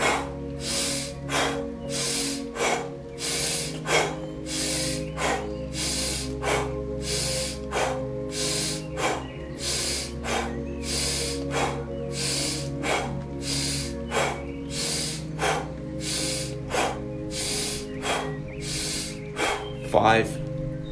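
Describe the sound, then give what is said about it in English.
Deep, rapid breathing with full inhales and exhales through the mouth, repeated many times in a steady, even rhythm over soft sustained musical tones. “Inhale fully, exhale mouth. Let's recharge the system for 30 seconds.”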